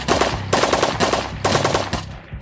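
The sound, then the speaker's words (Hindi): Light machine gun fire aimed at soldiers in the 1971 war's Gangasagar battle: several loud bursts of rapid, crackling shots with short gaps between them, heard alone without voices. “दुश्मन ने LMG यानी light machine gun से 14 guards के जवानों पर firing करना शुरू कर दिया।”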